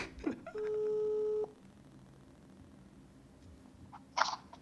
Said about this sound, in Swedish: Nu ska jag ringa Daniel.